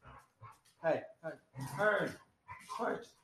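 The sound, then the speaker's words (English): Dogs bark and yip loudly in a string of short, close bursts, some calls carrying a whining, whimpering edge, with no steady rhythm. “sorry, that's the dogs being annoying again. I apologize. They're being very loud today and obnoxious.”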